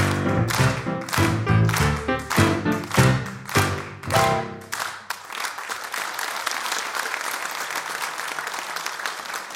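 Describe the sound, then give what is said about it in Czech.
The theme jingle of a well-known Hungarian animated TV series, made forty years ago, opens a show at Branické divadlo with about five seconds of punchy, rhythmic beats, then gives way to sustained applause from the audience. “Tato znělka patří jednomu známému kreslenému maďarskému seriálu, který byl natočen před rovnými 40 lety.”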